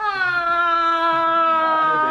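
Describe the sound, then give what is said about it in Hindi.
A girl cries in one long, high, sustained wail that holds steady and dips slightly at the end. “रोती क्यों जा रही हो? कुछ बताओ तो सही, आखिर हुआ क्या है?”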